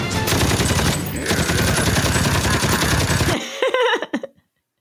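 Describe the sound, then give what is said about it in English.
Machine-gun fire from an animated show scene: a continuous, loud, rapid burst of shots that lasts about three seconds, then cuts off with a few short trailing sounds. “Roadblock pops up behind them with a machine gun, starts firing, and this is what he's doing while he's murdering all of these straight human murder. Beings.”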